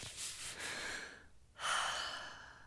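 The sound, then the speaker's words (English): A deep breath drawn by a woman: a long, airy inhale, a brief quiet gap, then a louder, breathy exhale, with no speech. “Taking a deep breath, she closed her eyes and prayed.”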